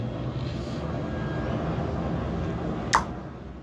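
An airplane flies overhead, making a steady, broad low drone that holds level throughout, with one brief sharp click near the end.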